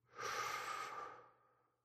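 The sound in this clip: A single slow, soft exhale of breath, a breathy rush that swells quickly, holds, then fades gradually over nearly two seconds, faint and alone.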